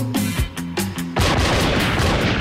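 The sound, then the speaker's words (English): Gunfire from two golden pistols: a few sharp, loud shots over a tonal background, then a dense, continuous burst of rapid fire. “Two golden pistols riddle his body with bullets and he drops the rings.”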